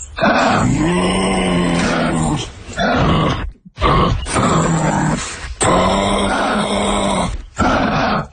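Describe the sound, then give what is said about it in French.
Kangaroo call: loud, throaty grunts and growling groans in several long drawn-out bursts, separated by brief pauses. “C'est silencieux, mais ça peut faire des vocalises et des grognements. Alors, en exclusivité, voici le cri du kangourou.”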